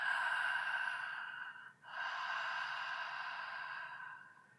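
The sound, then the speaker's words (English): Ujjayi yoga breathing drawn through a constricted back of the throat. A long, hissing breath in, a short pause, then a long, steady breath out that fades at the end. “And stay with that ujjayi breath. So feel it drag at the back of the throat for both your inhale and your exhale.”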